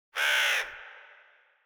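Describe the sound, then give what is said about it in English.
A crow caws once outside: a single harsh, raspy call, loud and about half a second long, then a fading tail with nothing else heard. “As soon as you put fudge back on the shelf, you just hear a caw from outside.”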